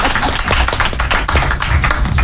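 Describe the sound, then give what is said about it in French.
Audience applause for guests introduced at a live public talk on the social and solidarity economy. A loud, dense patter of clapping with uneven surges fills the whole moment. “Merci de les applaudir.”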